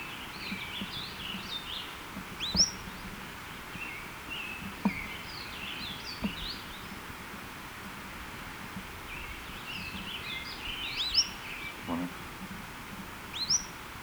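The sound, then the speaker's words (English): A bird gives high, two-note calls that recur several times at irregular intervals. The calls are faint and sit over a steady background hiss. “both notes are by this bird”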